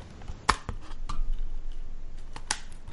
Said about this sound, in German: Ich habe eine DVD auf und zu gemacht